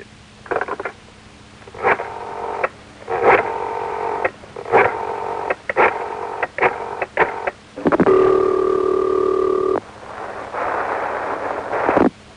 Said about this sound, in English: Let's pick up our telephones and let our Z callers listen in as we dial Doris Day.